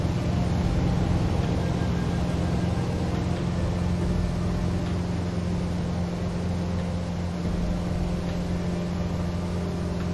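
Engine of a PT torpedo boat at Pearl Harbor in the WWII naval game Battlestations: Midway, a continuous, even, low droning hum with no talk.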